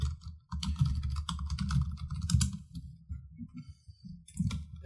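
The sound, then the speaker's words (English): Rapid typing on a computer keyboard while entering a search query: many crisp, irregular clicks in quick bursts with brief pauses, moderately loud, and no talk. “No, I literally typed in Batman v Superman budget and Google gave it to me.”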